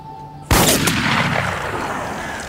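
An assault rifle fires at a plastic water bottle: a loud, sharp crack is followed moments later by a fainter second crack, then a long broad hiss that slowly fades.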